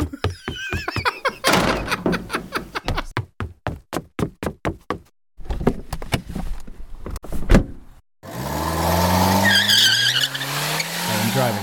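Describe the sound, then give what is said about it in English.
Car driving: a long run of sharp, rapid knocks, then a loud engine roar whose pitch climbs as it revs. “I'm driving now.”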